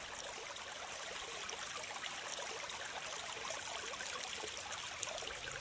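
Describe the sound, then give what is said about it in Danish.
Stream water flows on from a sluice at the far end of Skriversø lake in Liselund Slotspark, running down through hilly country. The rushing and trickling stays constant and unbroken from start to finish. “Når du ankommer til den anden ende af Skriversøen, opdager du, at vandet ledes igennem en sluse og videre ud i et åløb, som slænger sig ned igennem det bakkede landskab.”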